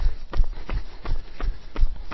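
Rhythmic footfalls of someone running, a steady series of soft thudding strikes about every third of a second, each with a low thump and a brighter scuff.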